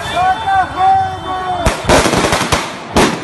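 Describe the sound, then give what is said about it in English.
Firecrackers are thrown during an attack on a refugee camp: shouting voices come first, then several sharp, loud bangs crack out in quick, uneven succession. “In this video, you can hear them shouting and throwing firecrackers as they tear down the camp,”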